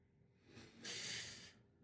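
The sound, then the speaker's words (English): A speaker takes a deep breath: a quiet, breathy rush of air that swells and holds for about half a second before fading, alone without talk. “Deep breath!”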